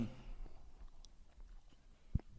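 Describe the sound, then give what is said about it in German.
Faint, soft chewing of food while eating, with quiet wet mouth sounds scattered throughout and one sharper click near the end, heard alone without talk. “Sorry, ich bin am Essen, kann ich reden.”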